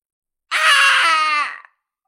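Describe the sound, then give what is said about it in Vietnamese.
A man screaming in pain: one loud, high, sustained anguished cry lasting about a second, tapering off at the end, with nothing else heard around it. “Lam Mộng hét thảm rồi va mạnh vào một cái ngọn núi ở phía xa.”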